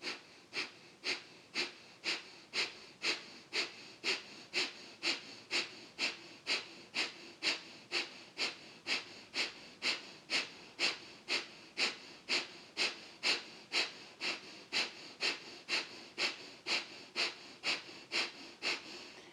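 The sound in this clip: Kapalabhati yoga breathing: a long run of quick, forceful exhalations, evenly spaced at nearly two per second. Each one is a sharp, hissing puff, with nothing else heard between them.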